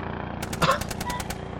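A gun is fired near a jungle in a rapid, even burst of many shots lasting about a second, set against steady background noise.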